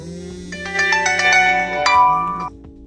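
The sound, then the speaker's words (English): A mobile phone ringtone plays a bright, melodic run of chiming electronic notes over a sustained tone, loud and alone for about two and a half seconds before cutting off. “And so my phone just went off confirming that is the truth.”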